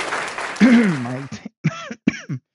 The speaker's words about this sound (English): I never stop fucking coughing for a minute.